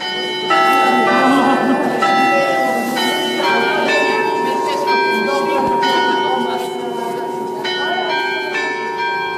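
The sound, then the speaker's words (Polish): The carillon of the town hall in Gdańsk chimes a loud, sustained melody of overlapping bell tones. The notes ring out one after another over a steady, resonant hum. “To, co Państwo słyszą, to są kuranty z Ratusza Miejskiego w Gdańsku”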